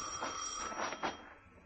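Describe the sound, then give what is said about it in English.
A telephone rings faintly, with a few short, bright bell bursts over a quiet background. “That's the phone.”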